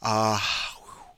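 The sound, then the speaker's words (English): A deep breath drawn to steady the nerves before a task: a short voiced, sigh-like onset gives way to a breathy exhale that fades out. “Deep breath”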